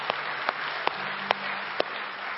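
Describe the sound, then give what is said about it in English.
A church audience claps in praise: steady, dense applause throughout, with a few sharper single claps standing out above the wash. “We give the Lord a hand of praise.”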